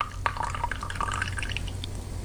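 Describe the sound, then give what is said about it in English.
Espresso pouring from a coffee machine: a thin, steady trickle of liquid with small drips, heard over a low, constant mechanical hum. “There's your coffee machine. It's not the same. That sounded like an espresso pour is what that sounded like.”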